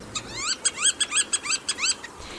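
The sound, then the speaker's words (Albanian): Northern pintail duck calls: a quick series of thin, high, rising whistled notes in an uneven rhythm, fairly faint over low background hiss. “Ndërsa ky ishte tingulli i gjelzës me bishtëzi, një tjetër vizitor e rregullt në Portugali”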